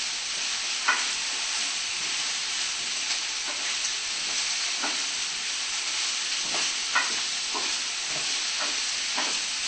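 Zucchini stirred and frying in a pan gives a steady sizzling hiss, with a few soft scrapes from the stirring breaking through.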